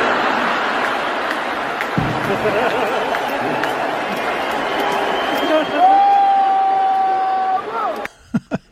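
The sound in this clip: An audience booing, a loud, sustained crowd roar mixed with chatter. A high whistle-like tone rises near the end, then the noise cuts off abruptly, followed by a few dull thumps.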